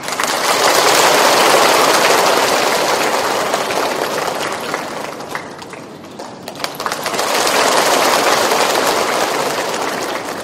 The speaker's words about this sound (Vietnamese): Xin quý vị hãy cho một tràng pháo tay thật lớn để chào đón Phật tử Thiện Đức Nguyễn Mạnh Hùng.